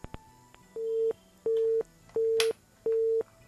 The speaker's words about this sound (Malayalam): Okay, അപ്പോൾ ആ call എന്തായാലും കട്ടായി പോയിട്ടുണ്ട്.